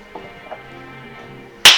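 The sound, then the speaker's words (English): A single sharp hand clap, as a character claps his hands over his head during a tabletop role-play session, lands loud and abrupt at the very end after near quiet. “And claps his hands over his head.”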